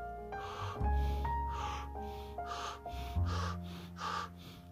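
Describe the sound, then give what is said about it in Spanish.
Breathing exercise with repeated in-breaths through the mouth and out-breaths through the nose, several airy breaths in a steady rhythm over a soft, sustained musical drone. “Inhala por la boca, exhala por la nariz.”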